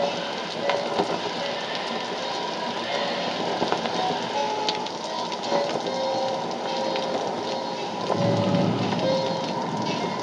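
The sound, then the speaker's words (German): Rain lashes the surface of a murky river below a boat's stern cabin roof, a steady, dense hiss of raindrops throughout with a slightly fuller low rumble near the end. “Die Kamera blickt vom Dach der Heckkabine nach unten in den trüben Fluss, dessen Oberfläche von Regentropfen gepeitscht wird.”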